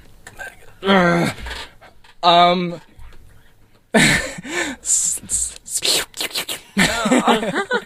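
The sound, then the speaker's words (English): A voice imitates a slug slipping across the ground with wet, breathy, squelching bursts. Two longer strained hisses come first, then a rapid run of choppy slurps and gasps. “How do you make a slug noise? I try to make a noise of it slipping across the ground.”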